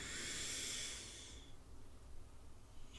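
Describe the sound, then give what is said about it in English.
A slow inhale through the nose during a guided breathing exercise, a soft breathy hiss lasting about a second and a half before it fades to near silence. “And now we're going to inhale through our nose”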